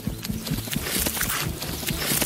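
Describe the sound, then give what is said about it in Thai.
Running footsteps of a giant hippo: many quick, heavy thudding steps with a clip-clop quality, fast and evenly paced, loud and steady throughout with no talking. “เจ้าฮิปโปยักษ์ออกวิ่งสุดกำลังและตามร่องรอยของทิดาลิกไป”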